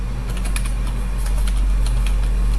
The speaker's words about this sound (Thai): หรือถ้าเราจะพิมพ์ยาวๆเราก็ต้องพิมพ์แล้วก็ เว้นวรรคข้อความไปเรื่อยๆนะคะ